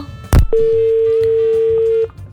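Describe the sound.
A steady, unbroken telephone tone after a dropped call sounds loud and level for about one and a half seconds. A short sharp click comes just before it, and no voices are heard.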